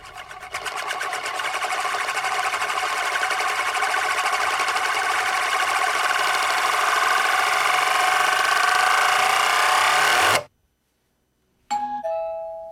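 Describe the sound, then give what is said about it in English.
A glittering coin-like disc spins on its edge on a circular mirror laid on a table, giving a steady whirring rattle for about ten seconds that cuts off abruptly. A short doorbell-like chime follows. “A glittering, coin-like object has been set spinning on its edge on a circular mirror laid on a table. The disc's rotation gradually runs out of energy.”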